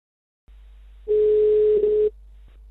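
Ringback tone of an outgoing phone call from a radio station to a woman: a single steady, mid-pitched electronic tone lasting about a second over faint line hiss, followed by a soft click.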